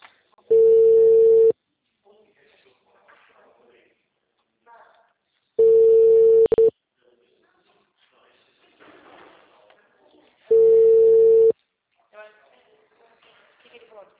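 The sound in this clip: A telephone call ringing unanswered: three long, steady ringback tones, each about a second, separated by several seconds of near-silence with only faint background noise.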